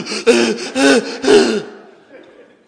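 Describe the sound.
A voice imitates being out of breath while bending over to tie shoes: three heavy, gasping, throaty breaths in quick succession, then a trailing exhale that fades out.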